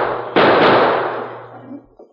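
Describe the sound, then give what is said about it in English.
A gunshot in a saloon: one sharp, loud blast that decays slowly, followed by a couple of faint low thumps. “he didn't notice four men who came through the batwing doors until they started shooting.”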